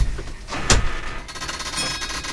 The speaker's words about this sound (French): Les portes s'ouvrent.